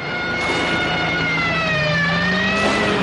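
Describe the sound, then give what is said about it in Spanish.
A car driving fast, chased by police patrol cars, their sirens wailing and shifting in pitch over a steady, loud engine roar with no voices. “Coches patrulla van tras él.”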